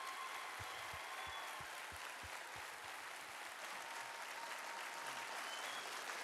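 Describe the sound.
Audience applause welcoming a speaker at a Traders Point gathering, a dense, steady wash of clapping that carries on without pause for the whole stretch.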